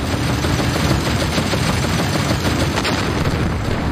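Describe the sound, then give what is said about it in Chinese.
German anti-aircraft guns fire on American tanks approaching a bridge in a dense, continuous, loud rattle of rapid shots and booms that blur into a wall of noise throughout, with no voices. “美军坦克刚刚靠近大桥，就遭到了德军高射炮的火力袭击。”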